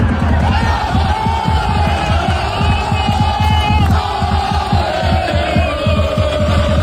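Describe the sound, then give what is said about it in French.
French football supporters gathered in Times Square, New York, cheering before their team's first match: loud, continuous crowd noise with shouts and a steady rhythmic pulsing that runs throughout. “Et forcément, les Français rassemblés à Times Square, ça fait un peu de bruit.”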